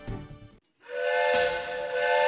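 A steam train whistle for a children's study-tour train: a short low burst, then a brief gap, then a long, steady, loud whistle tone with breathy hiss running to the end.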